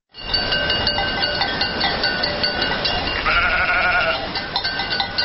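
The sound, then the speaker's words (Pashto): A herd of sheep and goats driven along by migrating nomads, with loaded camels, fills the air with a dense, steady din of overlapping bleats that runs unbroken from start to finish. “اوښانې په لوښو بار د میږو وزو رمې تر مخ کړي”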